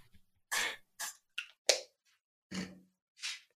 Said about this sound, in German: Entschuldigung, ich musste gerade kurz mein Asthma-Spray nehmen, weil ich mich so aufgeregt habe